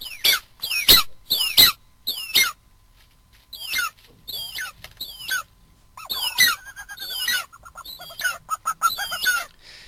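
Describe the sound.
Bird chicks in nests squabble over food with many rapid, shrill chirps and squeaks in uneven bursts that overlap and grow denser toward the end.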